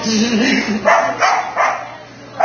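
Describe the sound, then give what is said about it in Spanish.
A dog barks a few times in short, fairly loud bursts spaced unevenly, over a low background. “Y un perro.”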